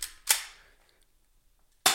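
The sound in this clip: Airsoft gun shots: two sharp, loud pops, the first with a long fading tail and the second coming well after a silent gap.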